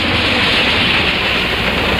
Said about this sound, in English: On the Friday, Train 58 races through Seymour County carrying its precious cargo.